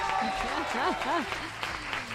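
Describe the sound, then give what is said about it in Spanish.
Applause from an audience in the stands forms a continuous wash of clapping, while voices speak over it in the first half and fade out as the clapping carries on alone. “Pues nada, chicos, ese aplauso de la grada, ¿no hay?”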